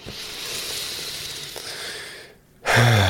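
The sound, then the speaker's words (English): A long, deep breath drawn in as a broad, airy hiss lasting about two seconds. A brief pause follows, then a louder, lower sound begins. “Let's take a deep breath into that.”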